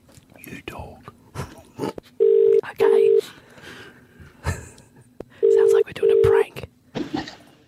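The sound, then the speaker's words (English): A telephone being dialed gives four steady touch-tone beeps in two close pairs, set among scattered clicks and rustling handling noise. “We're dialing.”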